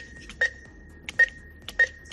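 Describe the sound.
Supermarket checkout scanner beeps at the till as donated food is paid for during a food collection drive: three short, evenly spaced high beeps with soft clicks over a faint low background hum.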